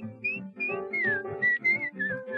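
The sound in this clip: A person whistles a cheerful tune: clear, bright, gliding notes in several short phrases with brief pauses between them, steady in loudness and heard alone.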